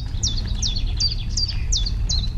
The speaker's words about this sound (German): Scheinbar unsichtbar finden sich die verschiedensten Vogelarten in den Wiesen zusammen, um gemeinsam ein großes, vielstimmiges Konzert zu geben.